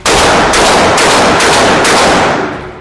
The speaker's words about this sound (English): While I love to shoot... Going hot.